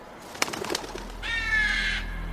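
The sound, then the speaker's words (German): A bird calls outdoors near a bus stop, giving one drawn-out tonal call that holds steady for under a second, preceded by a few short taps against a faint constant background. “Guck mal, Mama, ich habe gerade einen Vogel gefilmt.”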